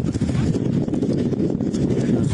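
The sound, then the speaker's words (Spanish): Wind and flames of a wildfire near Villa de Leyva, where people had been camping, form a loud, continuous low roar. Gusty buffeting runs through it without pause. “Es el sonido del viento y las llamas.”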